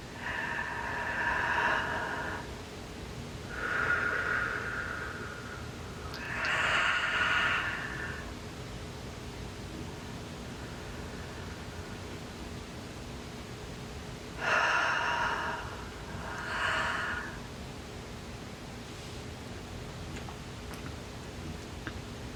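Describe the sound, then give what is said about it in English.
Deep, slow breathing during a guided meditation: a few soft, airy inhales and exhales, spaced several seconds apart, with a long quiet pause in the middle. “Deep breath, beautiful. Allow, allow, allow, breathe.”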